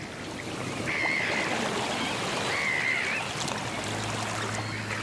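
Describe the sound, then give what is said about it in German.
Sea waves wash over a pebble beach on the northern shore by Tallinn, a steady rushing hiss, while gulls call faintly twice above it. “Im Norden von Tallinn der freie Blick auf das Meer. Kiesstrand, Möwenrufe.”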